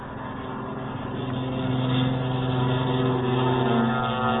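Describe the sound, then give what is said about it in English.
Military aircraft engines roaring as a flight heads down the runway to take off: a dense, steady low drone with propeller hum that swells in loudness early on and then holds. “Now Clark of Kentucky is taking his flight down the runway.”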